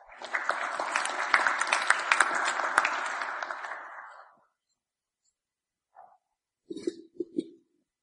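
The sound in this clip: Audience applause welcoming a speaker at a talk: dense clapping from many hands holds steady for about four seconds, then dies away into silence, broken only by a few brief faint sounds near the end.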